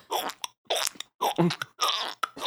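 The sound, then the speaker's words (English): A voice imitates walking on meat with wet, squelchy mouth sounds: several fleshy steps in a steady footstep rhythm, each a short smacking burst, with a couple of quicker smacks at the end. “Now I'm walking on meat.”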